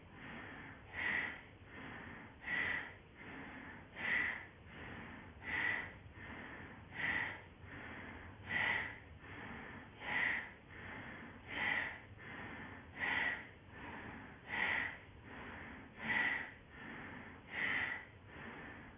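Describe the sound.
Steady rhythmic breathing during a breathing exercise, with many evenly spaced, quiet breaths repeating at a regular pace and no talking in between.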